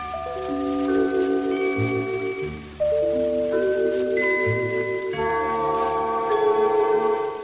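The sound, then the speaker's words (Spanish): A radio station identification gong from 1950s–60s Argentina sounds as sustained, bell-like chime tones that ring on and overlap, with the melodic phrase repeated three times, clear and alone. “Este fue el gong identificatorio de LR2 Radio Argentina que utilizó por varios”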